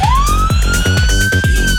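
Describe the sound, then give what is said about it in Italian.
A siren sound effect played in a studio gives a loud, steady wailing tone that rises slowly in pitch over a rhythmic thumping music beat. “infatti vuol dire schiaccia la sirena”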